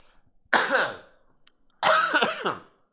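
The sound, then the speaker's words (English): Two harsh coughs into a microphone, each a rough, throaty burst with a quick tail, separated by about a second of silence. “Pro tip for the week is don't cough into a microphone.”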